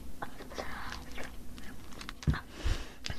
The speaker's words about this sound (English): Now, time to taste it. Boy, it's sure sticky.